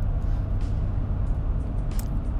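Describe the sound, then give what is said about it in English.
Steady low rumble of a car driving, heard from inside, even and continuous throughout with a few faint higher ticks and no talking. “Driving again. Always feeling inspired and motivated behind the wheel.”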